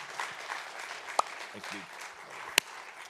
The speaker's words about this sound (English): Dream City, would you put your hands together and just welcome him this morning?